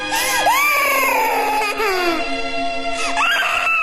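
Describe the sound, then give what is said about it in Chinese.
A small creature, a little monster king locked in a cage, cries sorrowfully in a loud, high-pitched wail that slides up and down in pitch without pause. “在小妖王悲痛的哭声中，天鹰和霍小兰渐行渐远。”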